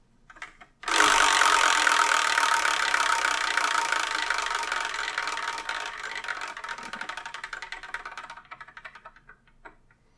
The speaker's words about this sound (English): let's spin and see what we're going to review in the next episode, shall we?